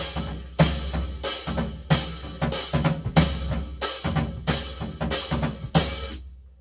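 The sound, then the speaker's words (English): A bass drum with a cymbal mounted on top is struck in a steady, even beat, each hit pairing a deep boom with a bright cymbal crash. About ten loud, evenly spaced hits ring out, then the final one fades into silence. “playing a bass drum with the cymbal on top, right? That sounds like this.”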